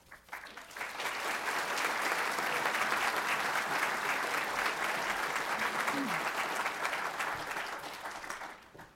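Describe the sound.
An audience applauds to welcome a history speaker to a lecture on the 1811 Richmond Theater fire. Clapping swells quickly within the first second, holds as a dense, steady patter for several seconds, then tapers off toward the end.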